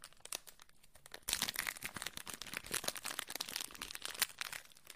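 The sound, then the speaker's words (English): Faint crinkling of a small wrapper being opened: after a quiet second, a dense, continuous run of plastic crackles and rustles that lasts to the end. “This is the sound of me opening this little wrapper here.”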